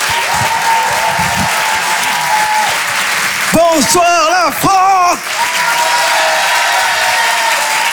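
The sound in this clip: An audience applauds and cheers to welcome a comedian on stage. The dense clapping runs steadily, pauses briefly while a man greets the crowd, then swells back up.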